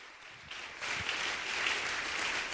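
Church audience applauding to welcome guests at an evening service: scattered clapping that swells after about half a second into a steady, dense patter, moderately loud and without voices.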